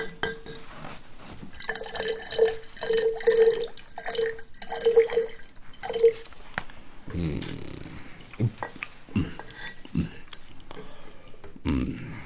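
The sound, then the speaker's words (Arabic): Milk being poured out for drinking: a quiet liquid pour with a steady run of small bubbling, glugging drips, followed by faint irregular knocks and rustles. “صب لنا أيها الخادم من هذا اللبن لنشرب.”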